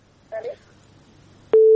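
A telephone being dialed to place a call: two brief dual-tone beeps, then a loud, steady line tone that starts and holds to the end.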